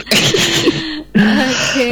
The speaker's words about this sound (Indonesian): Sorry agak batuk.